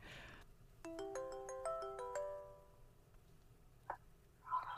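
Faint phone tones while a call is placed: a quick run of clear, stepped electronic beeps lasting under two seconds, followed by a couple of soft clicks.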